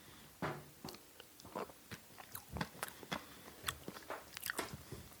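Someone eats raw cheesecake filling from a spoon. The filling is sweet cream cheese with no egg yet. Many small, close, quiet chewing and mouth clicks come in an uneven rhythm, with no talking.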